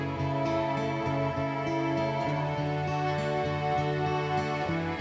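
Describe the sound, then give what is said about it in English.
A string section of cello, violin and viola plays sustained, layered chords, with low notes shifting in a slow pulsing rhythm beneath higher held tones. “String section. Which sounds like this. So there's a cello, violin and viola in there.”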